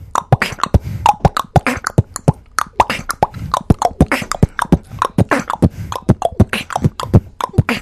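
A playful kiddie beat built from bottle cap popping sounds: many crisp, light pops in a steady bouncing rhythm, not bassy, loud and heard alone.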